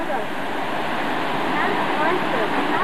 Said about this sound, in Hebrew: אנחנו ליד רוט 1, מפרץ קסום, מפל שנשפך מהסלע